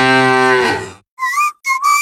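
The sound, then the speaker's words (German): A mooing sound comes from a mooing Müllermilch milk bottle: one long, loud, buzzy moo that fades out, then two short, high whistling tones after a brief gap. “So klingt es, wenn du 50.000 Euro gewinnst. Weiter geht's. Finde eine der noch 4 verbleibenden Muhenden Müllermilchflaschen und gewinne 50.000 Euro.”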